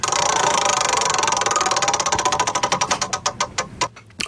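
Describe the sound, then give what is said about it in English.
A prize wheel spun for a game makes a rapid, bright ticking that gradually slows. The clicks grow farther apart until the wheel stops near the end, with a final lone tick. No voices are heard. “It's time Monday Mystery Game Wheel. What do we got? Time to spin that. Let's give that a hoik.”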